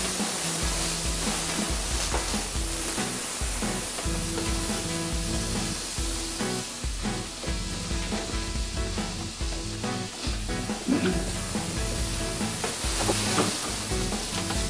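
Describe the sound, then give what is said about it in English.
Beef meatballs frying in a pan without olive oil give off a steady, fairly loud sizzling hiss with crackles and spits popping throughout. “All right, let's put the meatballs in here.”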